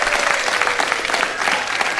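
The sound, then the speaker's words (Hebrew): Audience of children, parents and families applauding in a hall, a dense, steady wash of clapping that stays loud and even throughout. “ואנחנו נמצאים פה באולם, עם ילדים, עם הורים, עם משפחות, תמחו מחיאות כפיים שנשמע אתכם”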